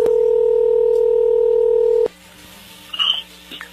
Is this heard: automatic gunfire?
no